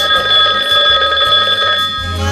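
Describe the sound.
A telephone rings with a steady, high electronic warbling tone that holds fairly loud through the whole clip, over a faint low pulsing underneath.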